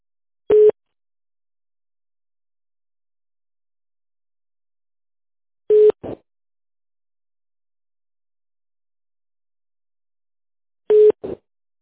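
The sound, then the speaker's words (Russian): Telephone line tones while an office call is put through to another department: three short, clear beeps, each followed by a fainter brief blip, spaced by long stretches of silence at an even, regular interval. “Так, сейчас я вас переключу, ждите.”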